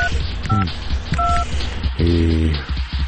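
A phone call is dialled and left unanswered before being rejected. A few brief two-tone beeps of the line sound over a dense, continuous background noise.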